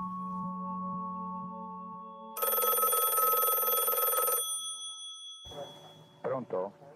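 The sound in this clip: A telephone bell rings in one loud, sustained two-second burst of bright metallic trilling, after a low steady hum, and a voice briefly follows it.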